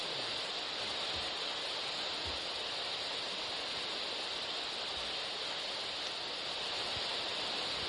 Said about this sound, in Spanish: Sigue el ruido blanco.